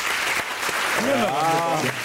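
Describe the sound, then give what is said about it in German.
A studio audience claps during a show-of-hands vote on a building development proposal in a talk show. The applause is steady throughout, and a voice speaks over the second half. “Wer ist für eine Randbebauung? Mal klatschen bitte.”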